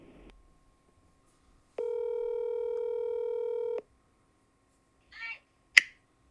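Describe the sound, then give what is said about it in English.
A telephone line tone sounds while a call is placed back to someone: one steady, even tone lasting about two seconds, followed by a couple of brief, faint clicks. “we're going to call Uncle Danny back”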